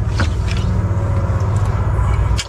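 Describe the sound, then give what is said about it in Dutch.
Deep, steady engine rumble from a car with over 1000 horsepower and launch control, held at a constant low pitch and loud throughout, with no clear voices. “want we gaan eerst launch control zo meteen doen. Dan heb je 10 seconden meer dan 1000 pk.”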